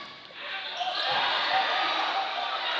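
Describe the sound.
Basketball dribbled during a boys' high school game, a few soft bounces half-buried under a steady wash of crowd noise and voices.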